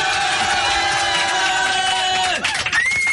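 A crowd cheering and applauding for a standing ovation, as a sound effect: a dense, loud, continuous roar of cheers and whoops, briefly sagging downward in pitch near the end before it carries on.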